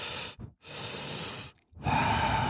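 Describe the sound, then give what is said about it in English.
Breathing exercise of cyclic sighing, meant as two inhales followed by one exhale, with a person voicing the pattern: three loud, airy breath sounds separated by brief silences, the first one short and the next two longer. “you're supposed to do two inhales and then one exhale. So I thought it would be more like,”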